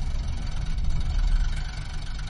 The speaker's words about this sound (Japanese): 乗りませんか？東岡崎行き発車しまーす。